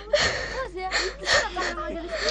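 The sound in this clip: A girl crying in a few wavering, whimpering bursts with gasping breaths, her sobbing voice rising and falling in pitch.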